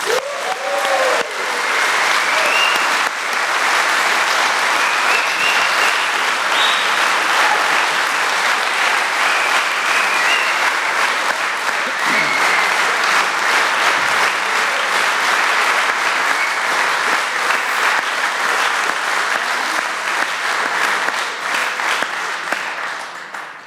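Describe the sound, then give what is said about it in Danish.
Sustained audience applause welcomes an opening speaker, loud and steady clapping from many hands that continues for over twenty seconds and tapers slightly at the end. “Og jeg synes, vi skal give ham en hånd.”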